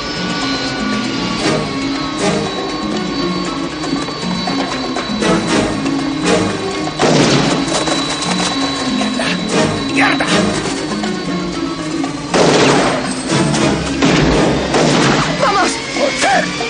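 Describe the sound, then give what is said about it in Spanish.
Gunshots ring out in a 1990 police action film chase as a man fires at a fleeing couple, and one shot hits a suitcase; a couple of loud sharp bursts stand out among scattered smaller cracks over a steady background. “Desde lejos, Nick dispara a la pareja que corre sin parar. Uno de los tiros hace blanco en la maleta que porta Strom.”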